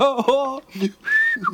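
A soldier whistles cheerfully and contentedly, a short bright run of a few sliding notes, loud and clear with no other sound around it.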